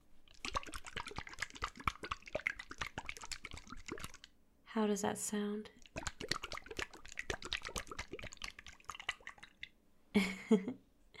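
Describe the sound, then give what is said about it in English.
Massage oil is poured and squeezed onto hands in two short, wet, splashy bursts. A person speaks softly in the stretches before and between them. “Then let me just get some massage oil on my hands so I can take care of you.”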